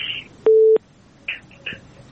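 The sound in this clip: Telephone line tones sound as the next caller is dialed into a radio call-in program. A steady two-part tone lasts about a third of a second, followed by a couple of shorter, softer tone bursts.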